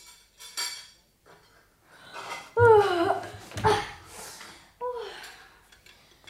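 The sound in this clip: Dishes and cutlery clatter in a kitchen as breakfast is made, with a few scattered clinks and knocks and a low voice murmuring at times.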